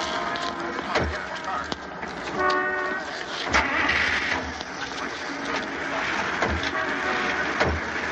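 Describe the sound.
Cars start and pull away in a convoy of a police car, cars and an ambulance as press photographers and armed police look on; a steady, loud engine rumble runs throughout with a few sharp clicks and background voices.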